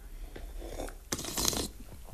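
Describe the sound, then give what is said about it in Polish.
Someone slurps hot chamomile tea, drawing air over the liquid in a short, noisy, breathy suck that swells louder for about half a second mid-sip, framed by softer sipping noises. “Oj, nie siorb tak, docent. Gorące.”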